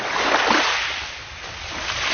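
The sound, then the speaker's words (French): Sea surf washes along a seaside promenade at Capo Orlando, where the beach is eroding: a steady, broad rushing roar that ebbs slightly midway and swells again, with no voices. “Capo Orlando, une promenade le long de la mer”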